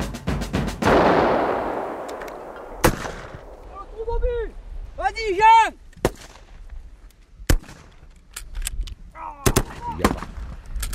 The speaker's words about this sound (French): Ah, ça tire là encore. Ça tire.